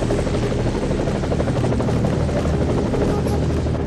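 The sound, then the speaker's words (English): A helicopter descends into a clearing, its rotors making a loud, steady, dense chopping roar throughout. “Beckett, who's going to be first to get to the chopper that's descending into the clearing up ahead.”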